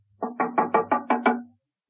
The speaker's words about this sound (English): Steed's front door was open. She knocked and entered.